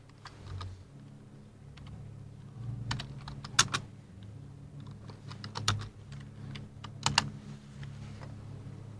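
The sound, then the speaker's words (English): Fingers type on a computer keyboard, producing many irregular key clicks with a few louder taps standing out, over a low steady hum and no talking. “Okay, so I'm just going to type it.”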